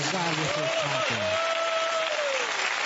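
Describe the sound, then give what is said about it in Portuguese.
An audience claps in praise to Jesus during a church service: dense, steady clapping that carries on throughout, with a voice rising above it. “pode louvar a Deus com palmas para Jesus.”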